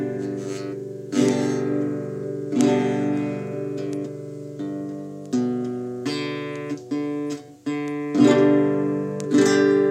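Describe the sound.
A guitar plays a G major chord, struck repeatedly in a folk style. Many ringing strums, each followed by a sustained decay, with no voices.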